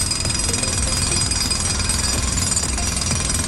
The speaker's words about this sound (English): And they will be using probably a big drill to try and get an old fireplace out.